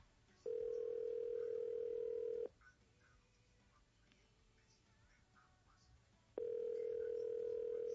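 A telephone call being placed to a church's call center: two long, steady, loud call tones of about two seconds each, separated by a quiet stretch of faint background noise.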